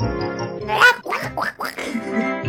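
Nasal duck quacks, a few in quick succession, stand out over a steady tonal backing with sustained harmonic notes.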